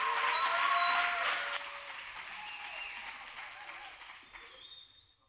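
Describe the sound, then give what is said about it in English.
A church audience claps to welcome a guest pastor to the pulpit; the applause is loud and dense at first, then thins and fades out toward the end. “Nothing like being cheered for. If you want to try it again, you can later.”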